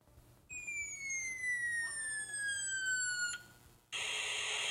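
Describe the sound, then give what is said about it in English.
An electronic whistle from a talking electronic battleship board game marks a torpedo travelling toward a ship. A bright tone with harmonics slides slowly downward for about three seconds, cuts off, then a harsh buzzing burst follows. “That's the sound of electronic talking battleship. That's the sound of our torpedo making its way over to a ship.”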